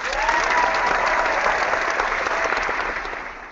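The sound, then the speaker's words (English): Studio audience applause sound effect: a dense, even wash of many hands clapping that holds steady for about three seconds, then fades out. “let's fire up the non-existent studio audience and get the show rolling”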